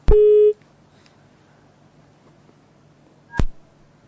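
A telephone busy tone after a call is cut off: a loud steady beep of about half a second, then near silence, then a shorter, sharper tone burst near the end.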